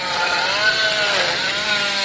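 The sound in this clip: A power drill whines as it cuts into a human cranium during an autopsy. The high, buzzing tone holds steady and wavers slightly in pitch throughout.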